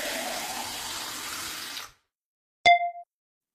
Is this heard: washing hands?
yes